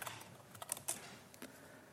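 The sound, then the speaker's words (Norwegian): Quiet typing on a computer keyboard as formulas are entered during a physics lesson. A handful of faint, irregular key clicks, with a small cluster in the middle, and no speech. “Nå skriver jeg parentes størrelse og retning.”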